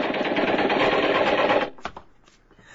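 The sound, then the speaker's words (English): Gunfire at a fleeing man comes as a loud, dense rattling volley lasting about a second and a half. It cuts off abruptly, followed by a few sharp isolated cracks, then quiet. “Stop or we'll shoot! Stop or we'll fire!”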